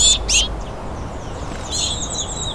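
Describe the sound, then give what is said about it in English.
A chickadee calls insistently for food, giving a few short bursts of high, thin chirps separated by a pause. “I've got some female warblers here, and this insistent chickadee”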